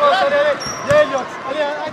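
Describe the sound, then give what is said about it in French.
A youth basketball game with the Vendée Challans Basket boys plays in a large arena-shaped hall seating 5000, where dull thuds of a bouncing ball sit under loud shouting and cheering voices from the stands. “On rentre maintenant dans la grande salle en forme d'arène pour retrouver les garçons du Vendée Chaland Basket. Ils sont en plein match sous les encouragements du public dans les gradins qui proposent pas moins de 5000 places assises.”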